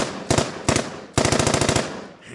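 A machine gun sound effect fires in rapid bursts: two short, loud volleys, then a longer sustained stream of fast, sharp shots that cuts off abruptly.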